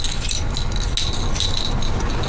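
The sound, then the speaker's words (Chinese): House keys jangling in a continuous metallic clinking and rattling, with many small overlapping jingles at a fairly steady loudness. “家门钥匙收好”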